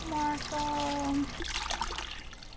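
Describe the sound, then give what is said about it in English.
Water poured into a container holding a rescued sea turtle hatchling for a swim test, a faint, splashing trickle in the second half, after a brief voiced sound at the start. “They pour water in their containers to see if they have the strength to lift their heads”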